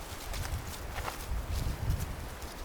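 Footsteps of someone walking outdoors in nature: many steady, soft thuds with a continuous rustling texture and no talk.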